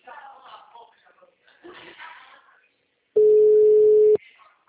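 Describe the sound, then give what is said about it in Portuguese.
Telephone ringing tone heard while calling a client: a single loud, steady pure tone lasting about a second, following a person talking briefly. “Ó, tô ligando pra minha cliente, só não deixa muito alto.”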